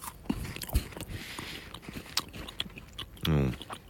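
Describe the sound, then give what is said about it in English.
Crunchy biting into a roasted tea white chocolate Kit Kat wafer bar, with a few sharp crisp snaps followed by quieter chewing, then a short voiced murmur near the end. “It looks, dear podcast listener, white, like a white chocolate Kit Kat, but it's roasted tea. So let's give this a go.”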